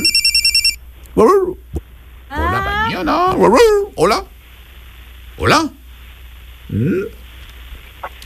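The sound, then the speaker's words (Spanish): A telephone rings with an incoming call: a short, rapid run of high electronic ringtone pulses, then voices begin talking in bursts. “Hay otra llamada. Una llamada más, a ver.”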